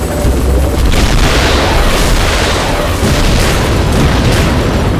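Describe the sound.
A volley of gunfire fired on command, a loud, dense barrage of booming blasts running continuously with no clear gaps between shots.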